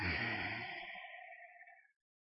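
A deep breath taken during a guided breathing exercise is a soft, airy hiss lasting nearly two seconds. It gradually thins and fades before stopping.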